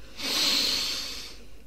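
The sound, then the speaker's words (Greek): A long, deep breath drawn in through the nose during a children's belly-breathing exercise, making a soft, steady, airy hiss that swells and then tapers over about a second and a half, with no voices. “Πάμε άλλη μια φορά να φουσκώσουμε την κυλίτσα μας σαν μπαλόνι. Εισπνοή βαθιά.”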